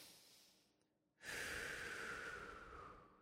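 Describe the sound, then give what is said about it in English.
Breathing during a guided relaxation exercise: after a short near-silent gap, one long, airy breath rises and holds steady and soft for about two seconds. “Now that you found that phrase, I want you just to breathe into it one more time.”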